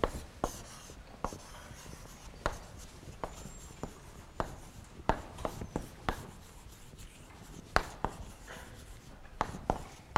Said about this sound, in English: So let me know if I write too small.